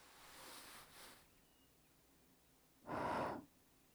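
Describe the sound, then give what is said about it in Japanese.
Soft ASMR blowing into the listener's ear: a couple of faint, breathy puffs, then a short pause and one louder, fuller blow near the end. “最後に耳ふうしてあげる。”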